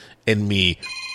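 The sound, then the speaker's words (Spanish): A telephone rings with a steady electronic tone, broken midway by a short voiced sound before the ringing resumes. “¡Ey, no cuelgue! ¡No se desesperen, hombre! Chihuahua, vuelve a marcar, por favor, y no te desesperes. Voy a contestar, pero pues estoy así como que haciendo un comentario.”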